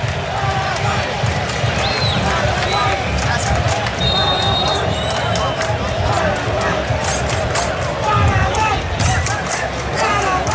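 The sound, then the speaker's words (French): Paraguay football supporters fill a stadium with a dense, steady roar during stoppage time of a match against Germany, while a commentator speaks over the crowd throughout. “Ce que vous entendez autour de nous, ce sont les supporters du Paraguay, hein, parce qu'on est vraiment au cœur des supporters ici.”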